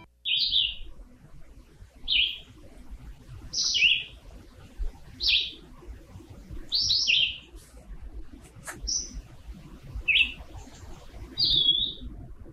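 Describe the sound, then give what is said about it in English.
A red-eyed vireo sings short, high chirped phrases of two or three notes, repeated about eight times with brief pauses between them. The song is clear against a faint, low background rumble. “That is the sound of the red-eyed vireo, and they are just prolific singers.”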